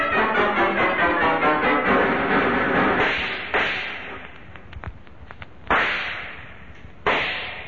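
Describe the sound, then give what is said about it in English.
Gunshots ring out in a tunnel shootout staged as a radio drama sound effect. A rapid, dense volley of cracks comes first, followed by three separate sharp shots, each with a ringing decay. “These openings in the tunnel wall make dandy foxholes, so you and I can keep shooting it out until Corbett comes back with help.”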